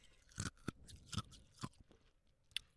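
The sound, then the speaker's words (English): Crunching of ice being chewed, ice from a fast-food restaurant drink: several crisp, brittle crunches at irregular intervals, faint and alone without talk. “my iron deficiency just kicked in and I have to chew on ice right now”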